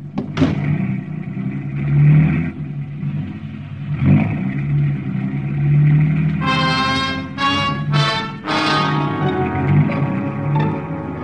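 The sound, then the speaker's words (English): A car driving through downtown Bangkok streets gives a rumbling engine that swells and revs repeatedly, with a few sharp clattering knocks. Brighter tonal bursts come through in the later part. “Lum drove us right through the downtown district of Bangkok toward the palace”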